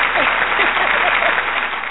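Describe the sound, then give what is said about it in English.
Crowd applause plays as a sound effect: dense, continuous clapping that stays loud throughout and eases slightly at the very end. “Applause! Put the applause! Yo, give me the applause.”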